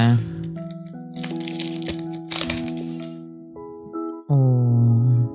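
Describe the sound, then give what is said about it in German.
Crinkly foil tearing as a pack of Pokémon trading cards is pulled open, with bursts of crackling rustle under a person speaking. “Ich krieg die gar nicht so gut auf, die Karten. Ich habe so schwitzige Finger, weil ich jetzt so aufgeregt bin.”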